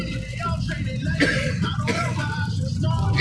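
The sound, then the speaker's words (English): Ragged coughing and throat clearing from someone choking on blunt smoke, harsh bursts over a continuous, noisy background. “Excuse me. I'm smoking a blunt. The bitch choking me up, y'all.”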